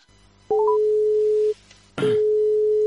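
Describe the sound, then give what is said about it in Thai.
Telephone busy tone after a dropped call: a quick rising three-note chirp leads into a steady mid-pitched tone lasting about a second, then a brief silence before the same loud tone resumes and runs to the end. “เมื่อกี้โทรผิดเหรอคะหรือว่าสายหลุด สายหลุดค่ะ”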